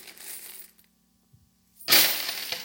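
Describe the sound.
Coins dropped into a coin jug make a short metallic clatter, then a pause, then a louder, sustained jingling spill of coins that continues to the end.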